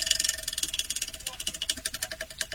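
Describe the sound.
A virtual prize wheel spinning, heard as a rapid, steady run of faint clicking ticks in a quick regular rhythm.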